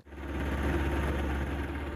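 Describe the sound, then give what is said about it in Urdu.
Engine of an army rescue boat crossing 20-foot-deep floodwater over submerged crops, a steady low drone that holds evenly without change. “ہم army کی امدادی کشتیوں میں 20 fit گہرے پانی پر سفر کر رہے ہیں، جو دراصل زیر آب فصلیں ہیں۔”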